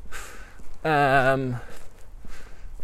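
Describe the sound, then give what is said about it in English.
Footsteps of someone walking along the Fallowfield Loop track: soft, steady steps under a person talking. “I'm basically walking down the same track that I did last week, the Fallowfield Loop.”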